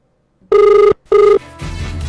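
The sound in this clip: Telephone ringing during a phone call: two buzzy, pulsing ring bursts separated by a short gap, loud and clear, followed by a rougher, noisy hiss.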